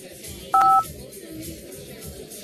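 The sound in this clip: A mobile phone is dialed, giving a single short dual-tone keypad beep over a quiet background.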